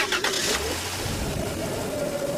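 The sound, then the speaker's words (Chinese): A car engine starts and the car drives off, with a brighter burst at the start followed by a low, steady rumble that holds at an even loudness to the end. “随后关上车门，汽车便立刻又开动”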